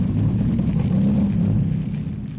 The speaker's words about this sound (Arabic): اللانش اللي راكبه يا فندم 85 حصان وسريع جدا. لازم نقبض عليه، هو ده اكيد اللي اسمه محروس. زود السرعة يا شويش عاشور.